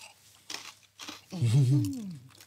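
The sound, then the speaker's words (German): Crispy snack crunched in a bite: two short, dry, crackling bursts, then a brief low hummed voice, all fairly quiet. “Deswegen gehe ich mal so rein. Ist natürlich knusprig, wie man unschwer hören kann.”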